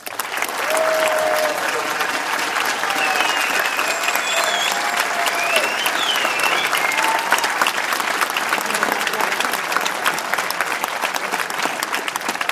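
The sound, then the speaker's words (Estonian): Audience applause at a charity concert with a pop choir and military orchestra: a dense, continuous roar of many hands clapping, loud and even for the whole stretch. “Tervitame neid suure aplausiga!”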